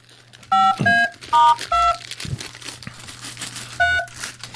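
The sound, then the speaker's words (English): Telephone keypad tones sound as a number is dialed, five short dual-pitched beeps in an uneven rhythm, the last after a longer pause, over faint rustling and crinkling. “going over to the phone, seeing my mother's number right there, and dialing”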